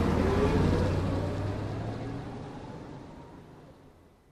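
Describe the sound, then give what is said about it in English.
A taxi cab pulling away, its low engine rumble loud at first and then fading steadily over a few seconds. “Don turns round and looks at the young man through the rear window as the cab pulls away.”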